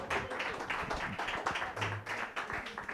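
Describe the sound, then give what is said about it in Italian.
An audience at a comedy night claps in applause, a dense, continuous patter of many hands, fairly faint and steady throughout. “Un grande applauso a Chiara Cherubini.”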